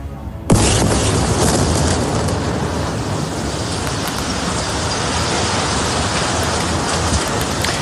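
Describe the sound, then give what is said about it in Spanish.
The Gafri Tower, the tallest building in the Gaza Strip, is destroyed in Gaza City's port area. A sudden loud boom-like onset after half a second becomes a dense, continuous roaring rumble that stays heavy throughout. “Lo que has escuchado es la destrucción de la Torre Gafri en la zona portuaria de la ciudad de Gaza, el edificio más alto de la franja.”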